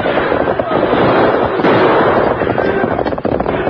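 Gunshots ring out in a shootout with outlaws trying to hold up a stagecoach: many loud, rapid cracks and bangs pile up into a dense, nearly continuous volley across the whole stretch.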